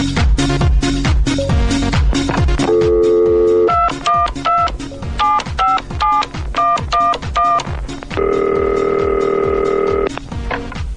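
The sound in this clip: Telephone dialing beeps for an incoming radio call-in line come in quick rhythmic bursts of short tones, broken twice by longer steady ringing tones, all loud and clear.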